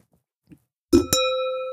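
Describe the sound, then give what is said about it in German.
A sparkling-water bottle clinks against a wine glass: after a soft knock comes one bright, high ringing chime with clear overtones, sustaining and fading slowly in near silence. “Mit einer Sprudelwasserflasche und einem Weinglas kann man schöne Anstoßgeräusche erzielen.”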